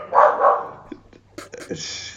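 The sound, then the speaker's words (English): Dogs bark, with two loud barks at the start followed by smaller, scattered bursts of sound. “Right, we've got you back from the dogs. Just because of that interruption, we probably should ask.”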